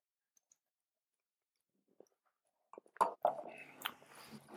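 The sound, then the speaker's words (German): Sipping a very pale beer with a good foam head: near silence broken by a few faint clicks, then a short cluster of wet slurping sips and swallowing sounds. “Es ist, wie der Name verspricht, ein sehr helles Bier. Extrem hell. Schöne Schaumkrone. Und ich trinke mal einen Schluck.”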